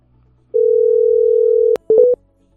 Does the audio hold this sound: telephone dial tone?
yes

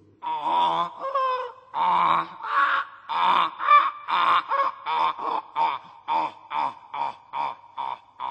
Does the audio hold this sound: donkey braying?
yes

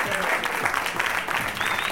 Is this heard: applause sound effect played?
yes

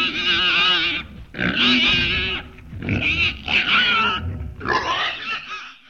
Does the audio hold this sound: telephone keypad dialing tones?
no

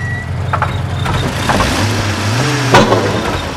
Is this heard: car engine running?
yes

